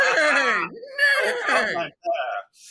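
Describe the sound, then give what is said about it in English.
A horse whinny sound effect that comes across more like a sheep's bleat: loud, wavering, quavering cries in a few bursts separated by short gaps. “Was that a sheep? It sounded more like a sheep than a horse.”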